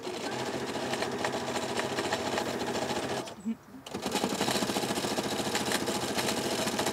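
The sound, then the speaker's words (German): A sewing machine stitches a pennant bunting in a fast, steady, buzzing rattle. It stops for a moment partway through, then resumes at the same rapid pace. “Ich nähe jetzt hier gerade eine Wimpelkette.”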